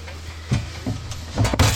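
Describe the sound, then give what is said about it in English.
A bear-proof trash can's latch is released with a side lever and the lid opened, giving a few dull mechanical clunks and rattles that grow louder and more clattery toward the end. “It took us a while to figure out how to open it. You press a lever on the side. You can open the lid.”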